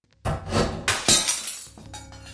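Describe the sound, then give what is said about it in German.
A sharp snap, like a catch releasing, comes as a framed picture drops to the floor and its glass shatters. Several loud crashing bursts follow, then tinkling fragments trail off. “Man hörte einen Schnappen, so als sei eine Arretierung gelöst worden, und das Zerschellen von Glas.”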